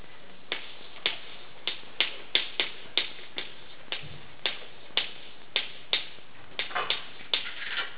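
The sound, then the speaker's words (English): Writing on a board during a church talk: many crisp, dry taps and clicks at a fairly steady rhythm, with no voices. “So I'm going to write on here, let's talk about the culture of our church. And that means our way of life and how we do things, and we kind of expect to do things in the church. So I'm going to write it up here.”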